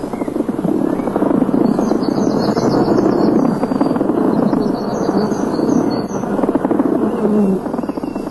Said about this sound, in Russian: Пчелы на самом деле разговаривают друг с другом. Вот одна из них сообщает, что нашла целый склад нектара совсем недалеко от улья, в 30 метрах.